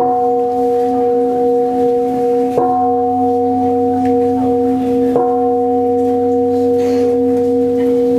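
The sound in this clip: A temple bell at a Buddhist retreat ceremony is struck three times, evenly spaced about two and a half seconds apart. Each strike rings on in a steady, sustained hum that carries into the next.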